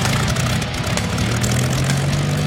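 Vintage propeller aircraft engines drone in a loud, continuous roar. A low hum underneath steps slightly upward in pitch partway through.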